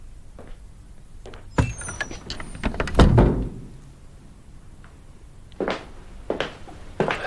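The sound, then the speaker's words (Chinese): A door being shut with one heavy, low thud, surrounded by a few lighter knocks and rattles before and after. “门关上。”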